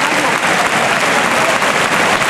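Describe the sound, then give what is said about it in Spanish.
Ovation from a bullring crowd, a dense, loud wash of continuous clapping that stays even for the whole short stretch. “La plaza ahora se ha dado cuenta y recibe la ovación. Enorme ovación.”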